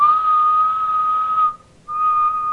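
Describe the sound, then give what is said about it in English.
A Cap'n Crunch toy whistle sounds a loud, steady, unwavering tone that holds for about one and a half seconds, breaks off briefly, then resumes at the same pitch. “You need a Captain Crunch whistle.”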